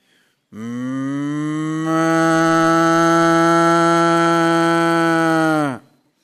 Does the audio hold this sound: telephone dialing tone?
no